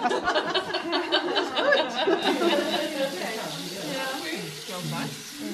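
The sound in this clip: Tomatoes and green pepper sizzle in a pot as they are stewed for a gravy, a steady frying hiss running under women's chatter and some laughter.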